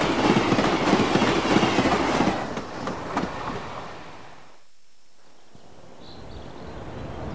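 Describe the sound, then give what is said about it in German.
A train crossing the border between East and West rumbles with a rhythmic clickety-clack for about three seconds, then fades away to near silence. “Kurz vor Kizze passiert der Zug die Grenze zwischen Ost und West.”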